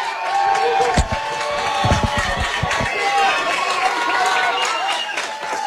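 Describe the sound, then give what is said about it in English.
Football stadium crowd cheering on a third down, a thick, continuous roar of many voices holding loud throughout, with a few dull thumps near the start. “Mountaineer fans, make some noise.”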